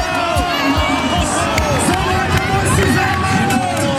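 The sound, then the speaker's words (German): Roaring crowd of football fans cheering at a public fan zone before the Brandenburg Gate: a dense, steady wall of shouting and babble with no pause, loud throughout. “Den wird es in diesem Sommer nicht geben vor dem Brandenburger Tor. Die Fanmeile gecancelt”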